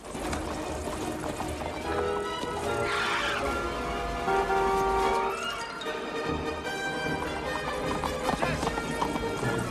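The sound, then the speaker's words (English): Quick clip-clop of a horse galloping as it pulls a carriage through a park: a steady, fast run of hoofbeats, fairly loud throughout, over a busy, dense background. “The man jumps on a bike and chases through the park after his horse, which is still pulling the carriage.”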